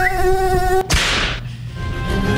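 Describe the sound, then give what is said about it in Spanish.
A high, steady mosquito whine buzzes as a sound effect on a football quiz show. It cuts off abruptly at a sharp swishing hit just before one second, which leaves a noisy wash that slowly fades. “Llega. Llega. Llega el mosquito.”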